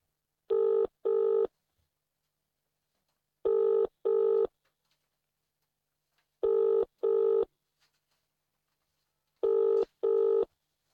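Telephone ringing on an outgoing call: four evenly spaced double rings, each a pair of short, steady buzzing tones, with silence between the pairs.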